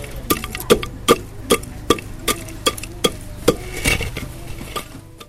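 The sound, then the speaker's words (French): Cassava leaves pounded with garlic and natron in a mortar, a steady, even series of sharp thuds repeating about every half second, with no talk. “J'ajoute le natron, ail, je pile bien mes légumes.”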